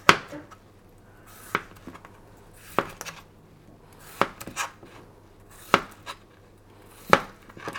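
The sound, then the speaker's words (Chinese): A knife chops potatoes into roll-cut chunks, with about six sharp, distinct knocks spaced at an unhurried, fairly even pace. Quieter taps fall between them in an otherwise quiet setting. “土豆的话就是切滚刀块”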